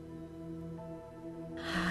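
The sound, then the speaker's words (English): A deep inhale during a guided breathing practice, swelling as a brief breathy rush near the end over soft, sustained background music. “you can start to deepen your breath, taking a deep inhale in”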